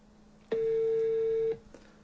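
Telephone ringback tone while a call waits for an answer: one steady, mid-pitched ring lasting about a second, then a quiet pause.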